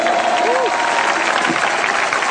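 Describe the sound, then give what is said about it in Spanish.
Sustained applause from an audience at a religious service, a dense, even wash of clapping mixed with crowd noise that continues without a break. “¡Aplauso a Jesús!”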